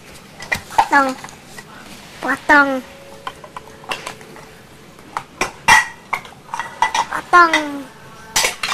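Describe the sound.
A knife clinks and scrapes against dishes as fish is cut in a kitchen, in short, uneven bursts with sharp, squeaky strokes.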